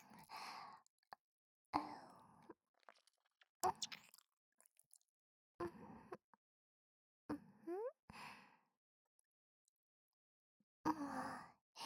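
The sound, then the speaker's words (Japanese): Someone chews home-cooked food in a series of soft, wet, irregular bursts, each separated by near-silence, with a few breathy exhales among them. “私が作った料理ちゃんと味わって食べてよね。”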